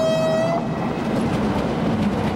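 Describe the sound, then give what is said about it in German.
A small, almost toy-like locomotive hauls freight wagons, including food transport cars. A brief horn note sounds at the start, then a loud, steady rumble of rolling wagons carries on without pause. “Das ist eine Lok, oder? Ja, das ist doch fast schon Spielzeuglok.”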